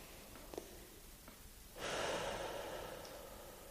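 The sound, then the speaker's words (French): A slow, deep breath in during a guided breathing exercise. Quiet at first, then an airy inhale swells in and is held as a long, soft rush of breath to the end. “Puis doucement, nous nous préparons à la reprise. Nous inspirons.”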